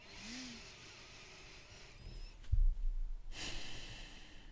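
Soft, faint breathing as someone takes a deep breath and breathes out during a calming exercise with a hand on the heart. Quiet airy hiss, then a brief low puff and a longer breathy exhale.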